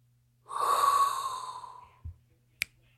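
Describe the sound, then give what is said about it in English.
A deep inhaled breath: one long, hissing draw of about a second and a half with a faint whistling tone that slowly fades. A soft low thump and a sharp click follow. “get your mind right and inhale a hot breath”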